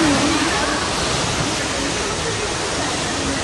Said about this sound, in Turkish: Özellikle Demre ilçesinde derelerin taşması sonucu onlarca evi su bastı. Sel nedeniyle araçlar suya gömüldü.